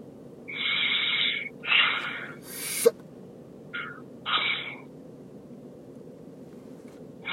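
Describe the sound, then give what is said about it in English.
Heavy breathing in and out, several forceful, breathy bursts of air separated by short pauses, loud over a steady low background hum with no talk. “Just breathe in and out five times heavily.”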